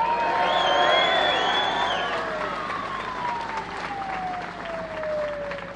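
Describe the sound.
Rally crowd at a national wage-fairness rally applauding and cheering the CFMMEU Secretary, with loud clapping and whoops at first that ease slightly but carry on throughout.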